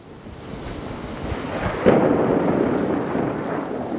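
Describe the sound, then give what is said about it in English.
Thunder and steady rain at Arvest Ballpark in Springdale, over a baseball diamond covered by a tarp. A constant loud hiss of rainfall runs throughout, and a deep rumble of thunder swells near the middle and keeps rolling. “The baseball diamond was hidden beneath a tarp. As rain fell from a dark and cloudy sky, thunder clapped overhead,”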